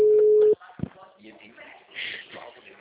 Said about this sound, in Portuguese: eu tô ligando, entrando em contato.